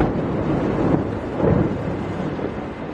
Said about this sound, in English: And that was the sound of fresh Israeli airstrikes against Hezbollah targets in Beirut's southern suburbs. The explosions were loud